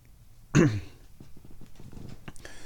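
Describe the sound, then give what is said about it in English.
One throat clearing from a person with sinus trouble: a single short, rough, raspy burst, followed by faint low rustling and breathy sounds. “You're going to have to listen to me clear my throat and deal with sinus issues all day today.”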